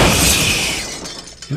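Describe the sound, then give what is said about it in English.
Glass breaking: a single loud shattering crash that starts at full force and then decays over about a second and a half into a bright, fading tail. “That's breaking glass”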